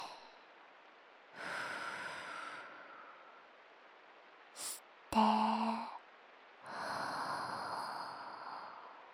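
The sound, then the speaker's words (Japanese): Slow, deep breathing during a guided relaxation exercise: a long, soft, airy inhale and a long exhale, faint and hushed, separated by a pause with a brief sharper noise. “ちょっと深呼吸しよっか。吸って吐いて、”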